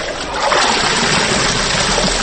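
Steady rushing and splashing water as a woman nearing seventy briskly washes laundry by hand, a continuous, fairly loud wash of sloshing with no clear individual splashes.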